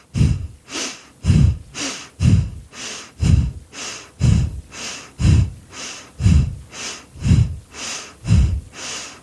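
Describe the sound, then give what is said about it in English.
Forceful, rapid breathing during a guided breathing exercise: a steady series of loud, huffing breaths at roughly one per second, each a sharp rush of air, with no talking. “a final 10 forceful breaths before letting that go”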